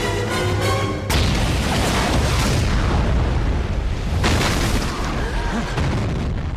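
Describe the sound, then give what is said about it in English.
A huge explosion as a claymore ignites a Tallboy missile, the blast tearing through trees and shrubs; a loud boom hits about a second in and swells into a long, rumbling roar, then surges again near the end. “The claymore ignites the Tallboy missile, which erupts into a mushroom cloud of smoke and flame. The blast tears through trees and shrubs and spreads out like a concentric wave of destruction from its epicenter, throwing up dirt and leaves and knocking over soldiers.”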